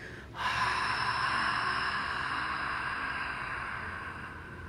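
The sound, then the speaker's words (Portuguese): A slow, long exhalation through an open glottis during a breathing exercise: a soft, breathy rush of air begins abruptly and holds steady for several seconds, fading gradually toward the end. “Mas a expiração vai ser ativa, abrindo a glote e soltando o ar o mais devagar e mais longo que puder, assim.”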